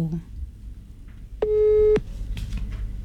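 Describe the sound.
A telephone call tone sounds as one steady beep of about half a second, loud and even, among people talking.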